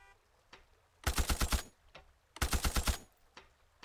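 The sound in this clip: Gunfire from a powerful weapon in a video game: two loud bursts of rapid automatic shots, each about half a second long, with a few faint single clicks around them.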